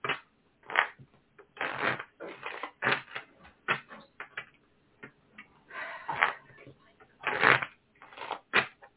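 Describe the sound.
Tarot cards are shuffled during a reading, giving many irregular bursts of papery riffling and flapping, each a short rustle separated by brief pauses, moderately loud and heard without speech.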